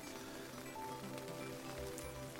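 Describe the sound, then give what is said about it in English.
Steady rain falling during a camping trip with a tent, a dense, even patter that holds at a constant low level throughout, with no voices. “while I wait for the rain to ease off.”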